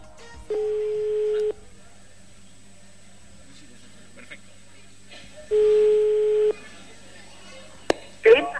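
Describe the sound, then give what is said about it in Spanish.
Telephone ringback tones on a call line, played to a full, silent assembly hall at a cultural centre: two long, steady, evenly pitched tones separated by several seconds of quiet line hiss. “El salón de actos lleno y en silencio absoluto para escuchar esta llamada.”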